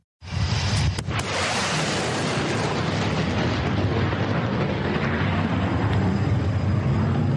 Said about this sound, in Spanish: Esto es un boom sónico, el estruendo que provoca un avión cuando rompe la barrera del sonido, es decir, cuando viaja más rápido que el sonido.